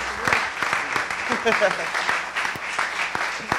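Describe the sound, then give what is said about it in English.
Church members applaud to welcome new members into the audience, a steady patter of clapping with sharp individual claps throughout and voices talking over it. “So guys, what we do now is we just give you the right hand of fellowship and say, welcome aboard. Let's give them a hand.”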